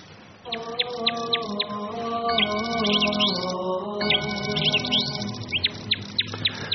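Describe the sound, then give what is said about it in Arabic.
Many sharp, high-pitched bird chirps come in quick repeated bursts and trills alongside a sustained lower tonal sound, fairly loud throughout. “دي زقزقة العصافير.”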